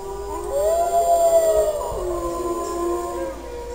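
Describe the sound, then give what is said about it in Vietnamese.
Wolves howling together: long, drawn-out tonal wails that rise, hold and glide, with overlapping voices forming a sustained, fairly loud chorus with no talk. “Liền ngay sau đó, nghìn vạn con sói cùng hòa giọng hú lên, âm hưởng chấn động cả trời xanh.”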